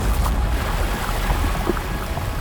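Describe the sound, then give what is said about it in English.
Waves surging onto a lake make a loud, continuous roaring rush of churning water with no breaks and no voices. “like boiling water, waves surged onto the lake.”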